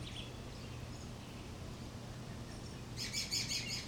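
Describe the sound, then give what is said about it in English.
A bird chirps outdoors in a quick run of high, bright notes near the end. Before and beneath it runs a steady, faint outdoor hiss. “Oh, that's a good bird. I'm sure you heard that one.”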